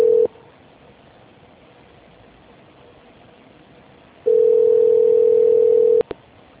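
A telephone tone plays during a call transfer over a narrow phone line: a steady mid-pitched tone briefly at the start, then, after a quiet gap, a longer unbroken tone of nearly two seconds that ends with a click.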